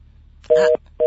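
Telephone busy signal after a dropped call: two loud, steady, mid-pitched electronic beeps, the second cut off, separated by a short silence over faint line hiss.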